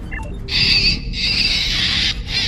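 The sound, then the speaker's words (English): A harsh, shrill screeching plays from a cassette tape in a few loud, sustained bursts with brief gaps between them. It has a grating, birdlike edge, and faint chirps come before it. “So Kim hits play, and it sounds like this terrible screeching sound. Want to hear the most annoying sound in the world?”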